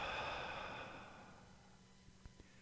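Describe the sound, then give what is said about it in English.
A slow exhaled breath during a guided breathing exercise. A soft, airy hiss starts strong, then thins and fades over about two seconds, leaving near-quiet with a couple of faint clicks. “Inhale. Now hold it there. Hang on. And exhale.”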